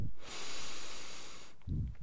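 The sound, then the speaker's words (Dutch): A slow breath drawn in through the nose, a steady airy hiss lasting about a second, followed by a brief low sound. “En adem rustig. In door je neus.”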